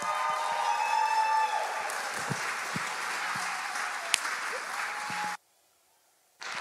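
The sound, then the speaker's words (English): A church audience applauds as a pastor comes onto the stage. The dense, steady clapping cuts off abruptly near the end, then resumes after a short silence. “Can we give it up for Pastor Ashley one more time?”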